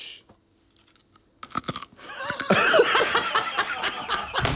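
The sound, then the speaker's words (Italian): A hard sugared almond confetto with a sugar glaze is bitten into and chewed after a near-silent pause. A few sharp crunches come first, then loud, continuous crunchy chewing. “Mangiamo un confetto in diretta e sentiamo quanto è crunch, e poi gli dai anche un voto.”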